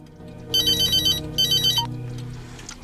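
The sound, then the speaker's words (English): Telephone ringing with a bright electronic trilling tone: two ring bursts separated by a short pause over a low steady hum, and no talk. “Marvin hesitates and then moves away from Abby to answer the phone”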